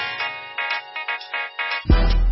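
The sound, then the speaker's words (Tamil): A telephone rings in a police station, a few repeated bursts of bright tonal ringing, with a louder low noise coming in near the end. “அப்போதான் phone மணி அடிச்சது.”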